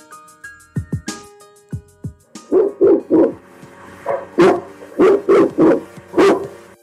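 A dog barks in many loud, sharp bursts that start sparse and then come in uneven clusters of two or three.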